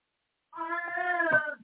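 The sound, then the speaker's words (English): An old cat yowls in one drawn-out, harmonic-rich cry of just over a second. It sounds alone, with no talk over it. “That is my old cat yowling, trying to locate me, so don't anyone be alarmed if you hear that in the background.”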